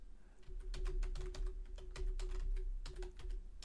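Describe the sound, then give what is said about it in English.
Fingers type on a computer keyboard in a quick, uneven patter of many soft keystrokes, faint against a steady low hum, with no speech. “Sorry, I have to type.”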